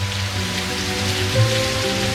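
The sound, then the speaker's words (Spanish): Heavy rain pours down over the city of Buenos Aires in a loud, steady, dense hiss of drops. It runs without any break from start to finish. “Y chaparrón, chaparrón, chaparrón. Llueve con todo en la ciudad de Buenos Aires y alrededores.”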